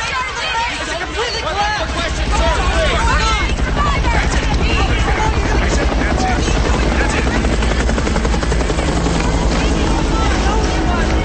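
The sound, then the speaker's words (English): Helicopters hovering overhead with searchlights give a loud, continuous rotor chop and engine drone that runs steadily through the whole clip, mixed with a murmur of crowd babble. “Helicopters with searchlights hover overhead.”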